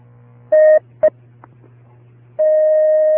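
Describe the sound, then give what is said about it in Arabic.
Telephone line tones as a caller is connected to a call-in line: two short beeps over a low hum, then a long, steady, level tone that holds to the end. “نأخذ اتصالا هاتفيا.”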